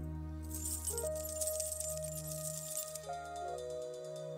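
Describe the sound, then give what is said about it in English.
Keys jangling in a bunch, a sustained run of bright metallic clinks and rattles over steady low sustained tones. “I got some keys.”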